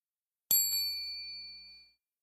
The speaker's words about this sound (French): Au son de la clochette,